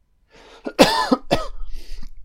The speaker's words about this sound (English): Apologies, guys. I'll try not to cough too much throughout.